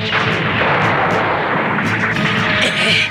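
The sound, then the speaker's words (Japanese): Heavy gunfire from a Gouf mobile suit in a battle scene, many loud booming shots cracking over a dense, continuous roar of combat noise. “グフめ。 正確な射撃だ。それゆえコンピューターには予想しやすい。”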